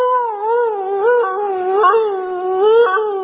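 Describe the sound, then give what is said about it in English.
A voice imitates the howl of a small hound dog with one long, wavering, sustained cry that rises and falls in pitch. “they had this little hush puppy hound dog looking dog. I love this story. I go in and that dog goes,”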